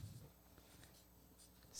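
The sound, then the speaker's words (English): Faint scratching of a pen or pencil drawing on paper, a soft, steady rasp with a few brighter strokes and no voices. “And this is how you draw jarritos.”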